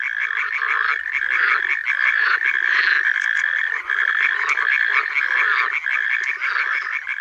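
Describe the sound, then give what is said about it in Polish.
Natterjack toads trill in a dense, continuous chorus of rapid pulsing calls, loud and steady throughout, with water frogs croaking among them. “Motywem przewodnim jest przerywany terkot ropuch paskówek i towarzyszący mu rechot żab wodnych.”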